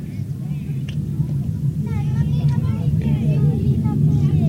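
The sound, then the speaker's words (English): Roar of an Eris rocket engine firing at launch, as the underpowered rocket slides off the pad and veers sideways. A steady, heavy low rumble fills the whole clip, with faint voices over it. “There's the sound. There's the sound. Unfortunately, it went sideways. I believe that's the end of the Eris rocket.”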